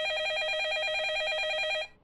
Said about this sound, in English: Shit, their phone, my phone, I mean, hold on.